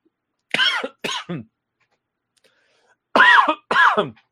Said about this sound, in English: Oh, man. Down the wrong pipe. Oh, excuse me.